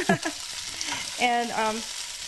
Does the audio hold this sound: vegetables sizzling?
yes